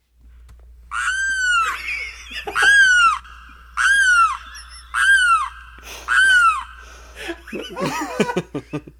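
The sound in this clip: A limpkin gives its loud, wailing mating calls: five strong, harmonic, crying bursts repeated at a steady pace, then softer, broken notes.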